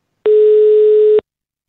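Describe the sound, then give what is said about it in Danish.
A telephone tone while a call is placed: one steady, mid-pitched beep lasting about a second, alone against silence. “Og jeg ringede til Jytte og spurgte, hvorfor det egentlig var et problem.”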